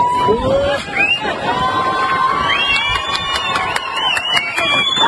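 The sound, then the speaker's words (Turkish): Crowd cheering and excited shouting, with high children's voices, mark the end of a rescue in Köprülü Canyon, Antalya, after a 13-year-old girl was stranded on a malfunctioning zipline over the river; loud, rising and falling calls overlap continuously. “Korku dolu anlar alkışlarla son buldu.”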